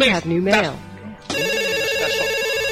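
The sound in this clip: A switchboard telephone ring follows a short stretch of voice. The steady, high electronic tone starts abruptly and holds unbroken to the end.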